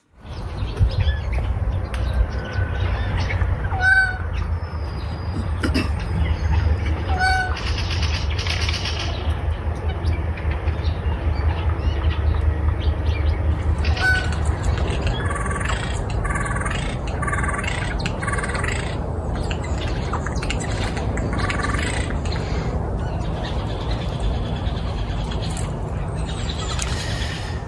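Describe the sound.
Bird calls and chirps repeat at intervals over a steady, continuous low rumble, with several short bright notes scattered throughout.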